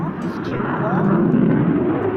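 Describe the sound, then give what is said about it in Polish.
Airplane flying overhead near horses, a broad, steady low roar that fills the whole clip without letting up. “Może ten samolot go denerwuje”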